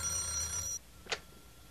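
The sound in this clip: Telephone ringing, left unanswered: a bright, faint ring stops abruptly after less than a second, followed by near silence and one brief soft click.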